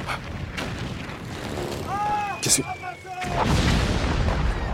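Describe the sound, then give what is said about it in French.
Artillery fire from World War I era guns: a few sharp, booming blasts with whistling tones between them, then a loud, sustained rumbling roar that fills the last second and a half. “Les Boches nous ont tendu un piège et ils ont bougé leur artillerie. Elle n'est pas à 5000 yens, elle est ici.”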